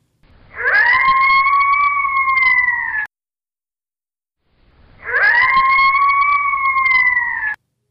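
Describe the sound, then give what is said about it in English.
Coyote pack howling: two long, sustained howls, each swelling up at the start and then holding a steady, high, clear pitch for a couple of seconds, separated by a short silence. “Well, of course, that was the howling of a coyote pack.”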